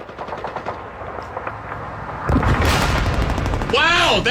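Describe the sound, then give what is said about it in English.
World War II gunfire sound effects: rapid bursts of machine-gun fire crackle at first, then swell into a louder, dense barrage of shots about halfway through. “Oh, wow. There's actually World War II sound effects. Hold on. There's one.”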